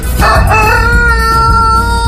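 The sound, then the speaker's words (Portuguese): A rooster crows, a loud, sustained, harmonic cock-a-doodle-doo with a single long call lasting nearly the whole moment and no voices over it. “Eita, galo papudo, do papudo Acilo Severo.”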